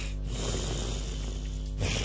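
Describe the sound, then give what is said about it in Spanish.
A voice imitates snoring as someone would while sleeping on one side, a steady rasping, throaty drone that continues throughout without pause. “Así duerme. Tiene ese ronquido, de costado.”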